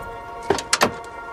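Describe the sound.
A person gets out of a car: three quick sharp clunks and rattles from the door and body, close together within half a second, over a steady low background hum.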